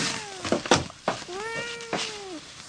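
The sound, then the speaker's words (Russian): A cat meows while waiting to be fed, giving two drawn-out, fairly loud meows. The second is longer, holds a steady pitch and drops at the end, with a few short knocks in between. “Что, мяу? Сейчас покормлю.”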